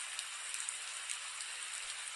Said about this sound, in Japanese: 絶え間なく、スルスル、スルスルと落ちてくる雨は